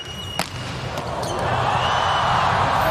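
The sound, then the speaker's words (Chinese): A volleyball serve scores an ace in a USA versus Poland final, heard as a single sharp thump of the ball. A crowd roar then builds and grows louder and steadier. “哈内斯发球直接得分”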